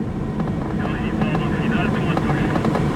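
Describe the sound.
The 180-horsepower engine of a Commodore tow plane roars at full power as it pulls a glider into takeoff, a continuous, steady low drone. Voices talk over it throughout.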